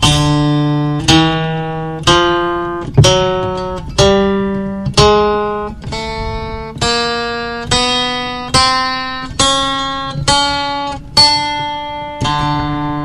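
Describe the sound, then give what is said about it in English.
Thirteen plucked, string-like notes, one per second, each decaying after its attack, play a rising scale built from overtones 12 through 24 of a string. The steps shrink and the run ends on the octave. “I will play you the scale that you would get if you chop the string up into 12 parts. For overtones 12 through 24, it sounds like this.”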